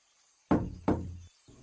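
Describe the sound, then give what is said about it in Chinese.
Knocking on a door in an audio drama: two loud, resonant knocks with ringing decays, spaced under half a second apart, followed by a faint lower sound near the end. “展昭上前敲敲门，没一会儿，门被打开了一条缝”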